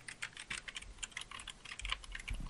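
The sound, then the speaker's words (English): Rapid typing on an Apple-style chiclet computer keyboard, a quiet, dense run of many soft, light key taps in an uneven rhythm, heard alone without talk. “can you hear this? Oh, yeah, that's like a newer Apple-style kind of chiclet keyboard.”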